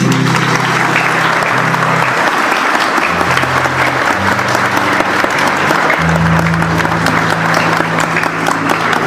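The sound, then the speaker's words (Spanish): Applause for every mother at a church gathering centred on the Eucharist: a dense, loud, steady crackle of many hands clapping that runs unbroken through the whole clip. “Muchísimas gracias y un fuerte aplauso para cada mamá.”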